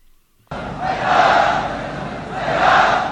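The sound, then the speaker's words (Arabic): A huge crowd chants slogans at an Ashura mass march in Sanaa, Yemen, bursting in abruptly after a brief silence and swelling loudly twice in a steady, rhythmic roar of many voices. “هيهات من الذلة، هتافات صدح بها اليمنيون في ذكرى عاشوراء التي خرجوا رجالا ونساء لإحيائها بمسيرات شعبية حاشدة في العاصمة صنعاء والمحافظات الأخرى”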